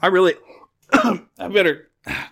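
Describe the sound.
Throat clearing and coughing from someone with something caught in the throat: four rough, voiced bursts separated by short pauses, the first the longest.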